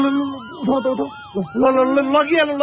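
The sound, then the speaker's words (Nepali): An ambulance siren arriving at a road accident on a city street. The wail is loud, with quick, repeated rising and falling sweeps in pitch. “Ambulance आयो, ambulance आयो।”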